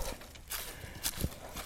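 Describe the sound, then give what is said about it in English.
Faint footsteps of someone walking on a trail fall as a few irregular, soft crunching steps. “I got out here on the trail, walking, comfortable, and everything. I just decided I'd just keep walking.”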